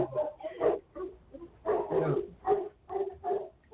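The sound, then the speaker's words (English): Several big hunting dogs bark indoors, a steady run of many overlapping deep barks in quick uneven bursts, heard fairly faintly. “sounds like you have like 20 hunting dogs in there.”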